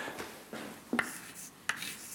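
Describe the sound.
Writing on a board during a physics lecture: a few faint, short scratchy strokes spaced irregularly, with quiet pauses between them.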